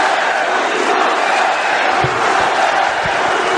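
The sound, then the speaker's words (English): Large rally crowd in Michigan cheering for Donald Trump, a dense, steady roar of many voices that holds loud throughout, with scattered shouts and whoops rising from the mass. “My, this is a big crowd, and I want to just say hello, Michigan.”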